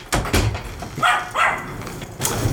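A puppy barks in a few short, sharp bursts, some yipping high and others lower and rougher, with brief pauses between them.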